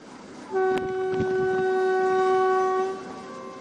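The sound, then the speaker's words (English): A train horn sounds one long, steady, loud blast over the rumble of a train running through snow in northeast China at around minus thirty degrees. A couple of sharp clacks are heard near the start of the blast. “Seeing that their trains shuttle through the snow at minus 30 odd degrees”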